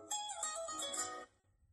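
A phone ringtone for an incoming call: a faint melodic burst of bright tones that lasts about a second and then stops.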